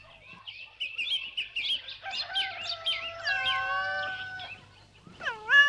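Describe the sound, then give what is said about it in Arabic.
A cat and her kittens playing on a farm, mewing and meowing in many overlapping high, thin calls, some short and chirp-like, others drawn out, with a louder cluster of meows near the end. “تعالوا شوفوا شلقات مزرعة، وفي حد هرة مع أولاد عم يلعبوا تحت الشمس.”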